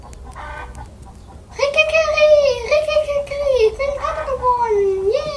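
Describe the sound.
A rooster crows, a brightly coloured cock in a farmyard with newly hatched chicks, in one long, loud, warbling call that dips and rises in pitch, starting suddenly after a quieter, murmuring opening.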